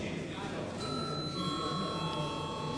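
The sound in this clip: Bell rung in parliament before a vote: a faint, sustained electronic ringing tone that starts partway in and holds, over a low murmur of background voices.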